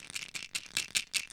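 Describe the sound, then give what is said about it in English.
A plastic container of anti-inflammatory pills rattles in several quick, bright shakes, each a crisp burst of tablets clattering against the sides, heard alone. “This is the sound of my anti-inflammatory drugs because I have chronic pain.”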